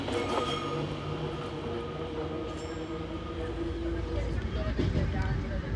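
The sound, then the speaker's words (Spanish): An old Fiat train runs on rails on the Catania–Paternò line with a steady, dense rumble of wheels and carriage noise, continuous and even in loudness throughout. “Al llegar a Paternò, Rosana, con su viejo tren Fiat, obtiene preferencia.”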